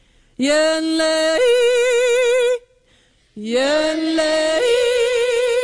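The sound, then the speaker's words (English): A single voice yodels on the word "yodel" in two phrases separated by a short pause. Each starts on a lower note and breaks upward into a higher, warbling sustained tone. “Now, the next step in yodeling is using the word Y-O-D-E-L. We're going to take the word yodel and put it in front of E, and it's going to sound like this.”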